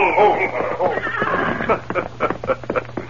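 A horse whinnies loudly as riders approach, then a run of irregular hoof clip-clops follows, quicker and choppier toward the end.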